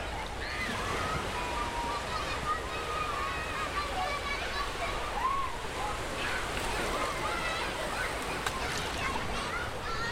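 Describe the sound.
Sea waves wash continuously at a beach in a steady, broad hiss and slosh, while people talk over the surf.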